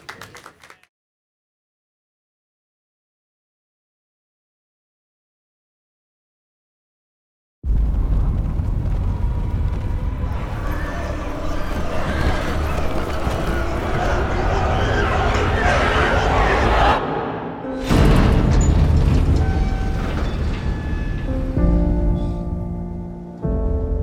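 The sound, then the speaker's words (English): Film trailer for Dawn of the Planet of the Apes: after several seconds of silence, a loud, dense, steady wash of rain-like noise and deep rumble with sustained tonal layers, briefly cutting out before surging back. “we want to give you a little sneak peek at the film by running the trailer for Dawn of the Planet of the Apes. Take a look.”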